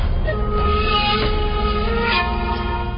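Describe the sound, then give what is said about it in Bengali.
Train noise while boarding a train at Kamalapur in Dhaka: a loud, steady low rumble with faint tonal hums and squeals running through it, continuous and without voices. “তো চলো আমরা ট্রেনের দিকে উঠে যাই।”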